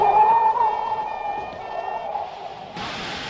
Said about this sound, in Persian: الان داریم صدای خارج شدن گاز هلیوم رو میشنویم.